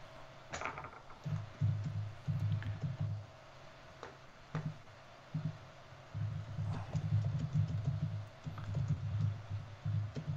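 Keyboard typing as a short note is written: many soft, quick keystrokes fall in uneven bursts with small pauses between them.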